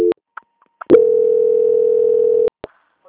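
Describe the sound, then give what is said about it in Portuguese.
Steady telephone line tone heard while a call is being transferred: one flat mid-pitched hum held for about a second and a half, set between short beeps and sharp clicks on the line, with no talking. “eu peço que aguarde em linha, que eu vou transferir o seu contato para o controle de qualidade, tá? Que vai dar continuidade. Só um minutinho. Transferência.”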